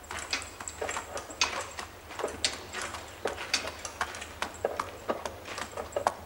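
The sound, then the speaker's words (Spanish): A horse's hooves clip-clop in many irregular, fairly faint steps as it is led by the reins out of a stable and across a courtyard, with no voices. “Sale del establo llevando al caballo de las riendas. Cruza el patio.”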